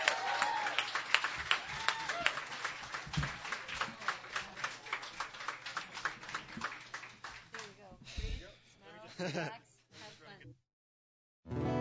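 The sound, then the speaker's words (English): Audience applause welcomes a performer to a Sunday night songwriter's stage: dense, steady clapping with rhythmic bursts that thins and fades near the end, giving way to a brief silence. “Please put your hands together. Give a big warm welcome to Jonathan Drachenburg.”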